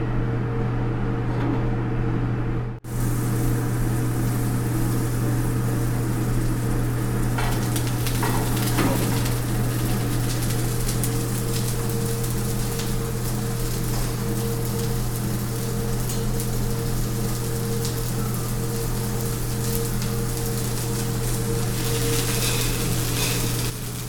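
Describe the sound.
Morel mushrooms pan fry in a hot pan, giving a steady, dense sizzling hiss with fine crackles that runs unbroken for the whole stretch, with no talking.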